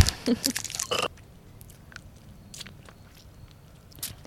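Warheads Colossal Sours sour candy is bitten and chewed with a quick run of loud, crunchy bites in the first second, followed by softer, sparse chewing sounds.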